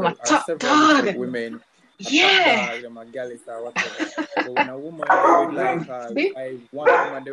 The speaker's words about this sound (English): Even the dog agrees. See that? Dog agrees.